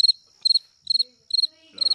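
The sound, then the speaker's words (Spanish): Crickets chirping: five short, high-pitched trills at an even rhythm, each made of a few rapid pulses, with no other sound around them. “grillos. Grillo.”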